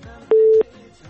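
A single steady telephone line tone, about a third of a second long, sounds as a caller is connected to a call-in show, rising clearly above faint background noise.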